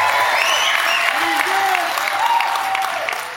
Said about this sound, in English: If you have new life in Jesus, can I hear you make some noise in this place?